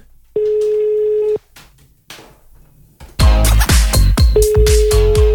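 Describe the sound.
Ringing tone of a telephone call: a steady, one-second tone rings out alone, then after a quieter gap returns under a burst of loud, clattering percussive sound.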